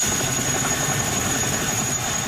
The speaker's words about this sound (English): A National Guard helicopter delivers troops and supplies to the region.